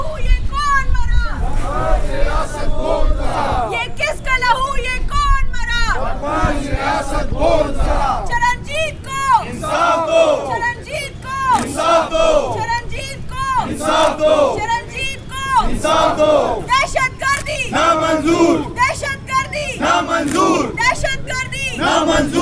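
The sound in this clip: Crowd chanting at a protest march by Sikh community members, activists and political party members against a targeted killing. Loud, rhythmic shouted slogans carry on without a break over a steady crowd hubbub.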